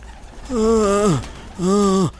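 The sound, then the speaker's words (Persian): Pigeons coo near the dome of the Imam Reza shrine: two drawn-out, low, throaty calls, each holding a steady pitch before sliding down at the end, separated by a short pause. “چرا اینقدر سر صدا میکنین شما کبوتر”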